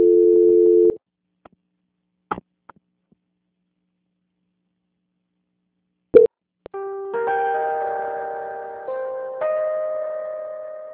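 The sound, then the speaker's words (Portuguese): Telephone line tones during a call transfer: a steady tone cuts off, a few sharp clicks follow after a silence, then electronic tones sound in a sequence that steps between pitches. “peço que a senhora aguarde na linha que eu vou transferir o contato para o controle de qualidade que dará continuidade à sua contratação. Só um momento, por gentileza. Fica na linha. Transferência.”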